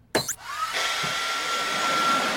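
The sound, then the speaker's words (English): A hair dryer is switched on: a brief click and clatter, then a steady, loud whooshing hum of blown air that runs to the end. “Sure, the hairdryer. Oh, yeah, hairdryer. Quick, here, sit. Okay. Okay, press that button.”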